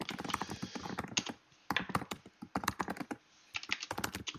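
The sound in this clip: Rapid clicking of computer keyboard typing, loud and alone, arriving in three quick bursts of keystrokes separated by brief pauses.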